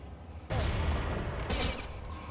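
Gunfire from an AK-103 rifle in a video game match: two loud, dense bursts of rapid fire, the second starting about a second after the first.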